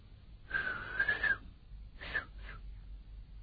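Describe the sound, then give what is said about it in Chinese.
A person whistles to a trained white parrot, performed as an imitation: a warbling high whistle phrase is followed, after a pause, by two short whistled notes, all fairly faint and with no talking. “侯千芳一打这个口哨，这鹦鹉经过训练了，马上在里头跳跳窜窜”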